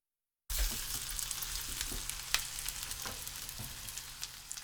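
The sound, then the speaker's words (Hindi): Sardines fry skin side up in a frying pan with more oil than usual, giving a steady, dense sizzle scattered with sharp pops and crackles that begins abruptly after a moment of silence. “एक frying pan को गर्म कीजिए और इसमें रोजमर्रा से जरा हटकर कुछ ज्यादा तेल डालिए। अब इसमें सार्डिन मछलियों को इस तरह रखें कि खाल वाली सम्त ऊपर की जानिब हो।”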